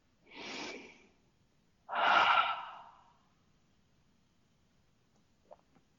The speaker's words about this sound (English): And another deep breath.